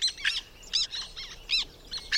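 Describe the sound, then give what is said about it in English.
Black terns call on Canada's southern plains, giving a rapid series of sharp, high, scratchy chirps in quick bursts, fairly faint against a quiet background. “surveying birds that live in Canada's southern plains, like these black terns”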